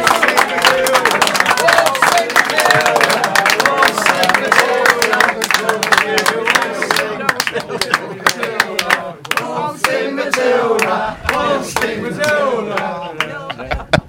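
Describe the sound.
A studio audience applauds to welcome a former football player and manager as the guest, with dense, loud, continuous clapping that thins slightly toward the end.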